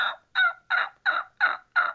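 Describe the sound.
A human voice imitates a wild turkey hen's yelp during a fall turkey hunt, with no call device. Six evenly spaced, raspy, nasal yelps repeat in a steady rhythm.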